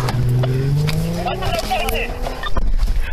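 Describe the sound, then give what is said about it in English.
A black 2017 Chrysler 300 speeding away from a police traffic stop, its engine revving loudly with climbing pitch as it accelerates amid rough, continuous road noise. “Be advised, the vehicle took off.”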